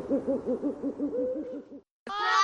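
A person imitates a bird call during a bird-sound guessing game: a quick run of low, evenly spaced hooting notes, then, after a brief silence, a short, harsh, higher-pitched cry.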